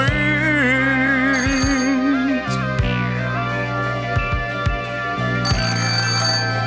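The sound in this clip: A melodic telephone ringtone plays continuously as a bright, tuneful electronic pattern with steady low notes, staying loud throughout with no voices.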